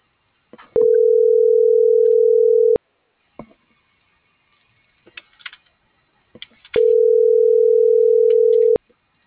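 Ringback tone of an unanswered telephone call: two long, steady, mid-pitched tones of about two seconds each, separated by a pause with faint clicks and rustling.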